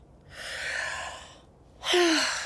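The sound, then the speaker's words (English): Deep breaths from a nervous character in an audio drama. A soft, drawn-out breath is followed after a brief pause by a louder, partly voiced breath with a slightly falling tone. “let's take a deep breath, okay? A little deeper.”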